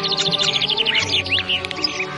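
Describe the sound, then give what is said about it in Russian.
Birds chirp among fruit-laden trees in a palace garden: rapid, high tweets and trills follow one another over a soft, steady musical hum. “Ветви деревьев склонялись под тяжестью фруктов, среди которых нежно щебетали птицы.”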